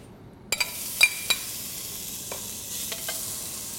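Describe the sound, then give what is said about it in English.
Bacon rendering its fat in a pot for Cajun red beans and rice gives a soft, steady high sizzle. A few sharp clinks of a utensil against the pot ring out early, followed by scattered quieter pops and ticks. “So the first step we need to do is render the bacon. This will be the base flavor of our dish.”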